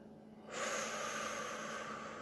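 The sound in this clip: A long, steady exhale during a breathing exercise. The breath out starts abruptly about half a second in and holds loud and even to the end, with no talk.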